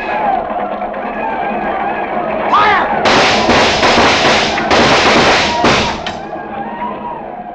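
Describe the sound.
Gunfire in a battle against Indian attackers: a rapid series of loud, sharp shots in close succession after a quieter start, with men's voices shouting.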